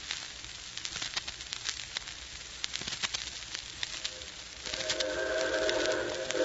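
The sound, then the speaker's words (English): A 4-6-4 Hudson-type steam locomotive arrives. A low, rattling rumble is laced with sharp clanking clicks, then swells into a louder sustained hiss with a tonal whine near the end. “here she comes. Yep. Right on time. It's a 464 type locomotive. Looks like a Hudson.”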